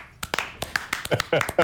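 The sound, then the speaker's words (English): A sparse smattering of applause, like polite golf applause: several scattered, separate hand claps spread unevenly across a brief moment, fairly soft and never building into a full ovation. “That's the dictionary definition of a smattering of applause. It is a smattering. That's golf applause, Dan. Golf applause.”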